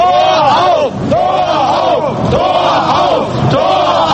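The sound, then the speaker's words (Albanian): Crowd of West Germans in Berlin in 1989 chanting in unison for the wall to be opened. The loud shouted phrase repeats several times in a steady rhythm, with many voices blending together. “Kishin këto thirrjet e gjermanoperëndimorëve duke thirrur hapeni murin.”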